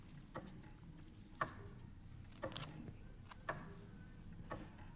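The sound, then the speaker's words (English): Faint, steady ticking comes from a radio service's master clock room, where one clock controls all the others. Five soft ticks fall roughly a second apart over a low background hum, with no voices. “This is the sound of the clock room that holds the master control for all the clocks of sound radio, and it's controlled by another clock at television headquarters.”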